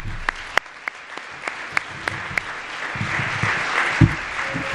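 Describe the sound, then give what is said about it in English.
An audience applauds to honor years of service. A few scattered, sharp claps come first, then the clapping swells into fuller, sustained applause. “That's a legacy of impact that's worth acknowledging and celebrating and thanking with a round of applause once again.”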